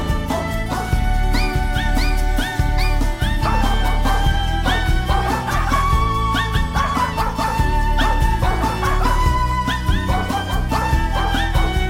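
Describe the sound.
A dog barks and yips over music, short bright barks repeating in a fairly regular pattern at a steady level.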